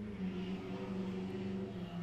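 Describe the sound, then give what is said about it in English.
A motor carriage engine drones steadily with a low humming tone, a constant moderate rumble that holds evenly throughout with no voices. “That, ladies and gentlemen, is a, what they call a motor carriage.”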